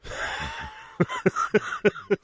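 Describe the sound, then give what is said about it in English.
A man coughing in a series of short, sharp, throaty bursts, several in quick succession, after a drawn-out strained vocal sound. “Oh, you made him cough.”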